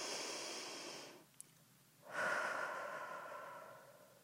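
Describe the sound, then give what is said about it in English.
Slow, deep breathing, soft and quiet: a long breathy rush of air, a short pause, then a second, fuller and longer breath that slowly fades, with no voices. “So, deep breath.”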